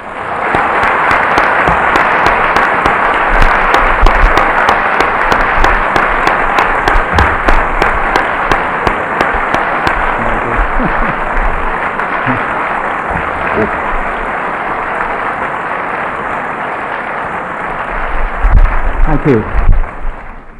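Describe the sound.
Sustained applause from an audience at the LSE welcoming a guest speaker: dense, steady clapping that holds an even level for about twenty seconds and swells briefly near the end.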